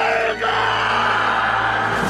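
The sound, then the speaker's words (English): A man yells loudly as he wakes up: a raw, sustained shout lasting about two seconds, with a brief dip near the start. “this is the one where she sneaks in and takes the map, and then he yells, waking up.”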